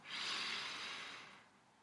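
A single soft, airy breath taken during a mindful breathing exercise swells quickly and then fades gradually over about a second and a half, quiet and alone.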